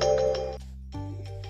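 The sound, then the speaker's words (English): A phone ringtone goes off in the middle of a spoken recording: a bright, melodic electronic tone in two bursts separated by a short pause, with no talking over it. “that was a phone call in there”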